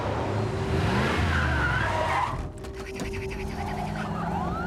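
Tires screech and an engine works hard as a car pulls out of a parking lot; a loud, sustained squeal runs for a couple of seconds, then steadier engine and road noise continue a little softer.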